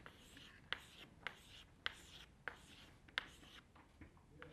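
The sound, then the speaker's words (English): Drawing circles on a board: several short, scratchy swipes come in an uneven rhythm, and faint rubbing fills the gaps between the sharper strokes. “Okay, so I'm gonna draw some circles.”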